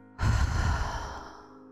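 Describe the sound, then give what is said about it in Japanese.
A deep breath during a guided meditation, drawn in through the nose and let out through the mouth: a single loud, airy rush that starts abruptly and fades slowly, with no talk. “鼻から大きく息を吸って口から吐いて、”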